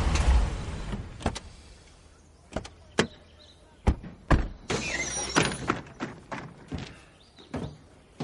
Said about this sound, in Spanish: En la calle principal, un conductor retira el autobús escolar de la calzada, mientras dos vehículos del FBI aparcan en medio de la calle.